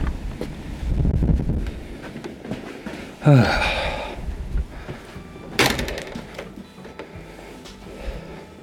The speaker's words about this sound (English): Oh, this wind has just come out of nowhere.